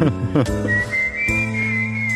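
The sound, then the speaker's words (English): A long whistle is held as one clear, high note that rises slightly and is sustained for over a second and a half above a lower, steady background. “It's a long whistle too.”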